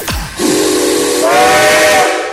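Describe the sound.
A steam train whistle blasts loudly over rushing steam hiss, a sustained shrill tone that steps up to a higher, brighter pitch partway through and holds steady.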